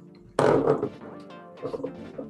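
A D100 die is rolled: a sudden heavy thunk followed by a hollow, rumbling roll that fades, then a few lighter knocks and rattles as it settles.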